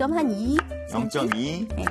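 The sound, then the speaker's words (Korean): A knife slices cucumbers thinly, two at a time, after their ends are trimmed. A few crisp cuts sound under steady talk. “저는 두 개씩 넣고 이렇게 썰거든요. 네. 네. 그래서 좀 얇게 썰어주세요. 얇게.”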